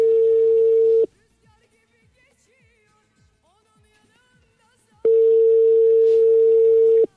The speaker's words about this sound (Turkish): Bir dakika bir saniye arıyorum şuradan.